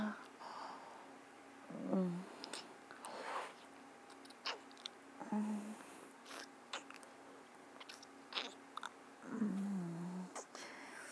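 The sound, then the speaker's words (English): Wet licking and mouth sounds, with many soft irregular smacks and clicks and a few faint vocal sounds between them. “If I start to lick it. Will that wake you up?”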